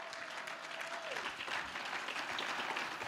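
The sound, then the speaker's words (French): Applause from an audience during a church sermon, a quiet, continuous wash of clapping that holds steady throughout. “Oh yes, acclame le Seigneur. Oh yes, acclame le Seigneur.”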